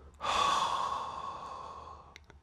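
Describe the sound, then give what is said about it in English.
One slow, deep exhale from a breathing exercise: a breathy rush that starts strong, then gradually tapers off over about two seconds, with faint clicks at the end. “And exhale, breathe out.”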